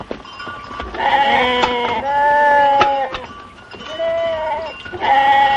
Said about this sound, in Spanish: Más tarde el pastor está en un cercado ordeñando a las ovejas y llena la lechera con el cubo de ordeñar.